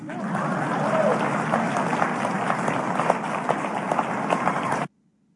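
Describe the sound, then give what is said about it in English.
Audience applause, a dense and steady wash of clapping lasting about five seconds before it cuts off abruptly. “Please clap. Please, yeah. please clap.”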